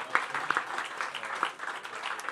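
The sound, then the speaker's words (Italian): A live comedy audience in Italy applauds a mother seated in the crowd. The clapping is fairly soft and uneven, with a few sharper claps poking out of a light, continuous patter. “Un applauso a questa mamma meravigliosa.”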